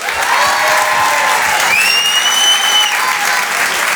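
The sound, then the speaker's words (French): Comedy club audience applauding and cheering a comedian as they come on stage: dense, steady clapping that stays loud and even for the whole stretch. “Faites un maximum de bruit, s'il vous plaît, pour Oda Sama.”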